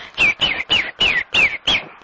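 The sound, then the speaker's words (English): A person imitates a bird call with six quick chirping whistles in an even rhythm. Each is loud, clear and slides downward in pitch, with no other sound. “I'll try and do a bird, but I don't know really.”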